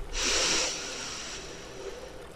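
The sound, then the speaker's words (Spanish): A slow breath exhaled through the mouth during a guided breathing exercise, starting as a loud, airy rush and then thinning into a softer hiss that trails off. “Exhala por la boca. Inhala por la nariz.”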